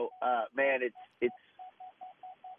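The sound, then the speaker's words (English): Short, evenly spaced electronic beeps at one steady mid pitch sound in the background, many of them in a regular rhythm. Voices talk over the first part, and the later beeps continue alone. “Sorry about that beeping in the background.”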